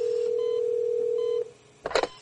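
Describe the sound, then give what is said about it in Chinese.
Telephone ringback tone: one steady, low beep holds for about a second and a half and then cuts off, followed by a short, noisy burst. “陆承泽估计睡下了，电话里的嘟嘟声响了好一会儿，那边才接过来”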